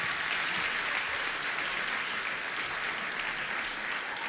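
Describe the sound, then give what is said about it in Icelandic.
Audience applause greets a speaker coming on stage at an event, a steady, continuous patter of many hands clapping at an even level with no voices over it. “Takk ég vel á móti honum, gefum honum gott klapp.”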